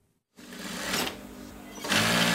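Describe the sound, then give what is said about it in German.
A sewing machine hums in a small furniture upholstery workshop in Istanbul as a worker sews a seam on a beige sofa cover. It starts abruptly after a moment of silence, whirring steadily, then runs louder near the end. “Die Nähmaschine summt in der kleinen Möbelschreinerei von Mazen in einem Istanbuler Arbeiterviertel.”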